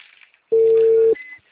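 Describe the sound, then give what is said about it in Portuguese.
A telephone ringing tone sounds while a call is being placed: one steady, fairly loud electronic beep that holds for about half a second and then stops, with faint background sound around it. “Tá chamando aqui da moça, tá chamando.”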